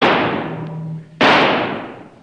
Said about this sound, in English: All right, Kiva just shot an antelope. It's not proper for visitors to call without bringing meat.